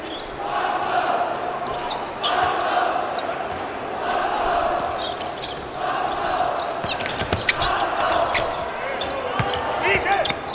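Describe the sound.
Basketball bounces during a game as a player dribbles, repeated sharp thumps on the court beneath a commentator's continuous talk.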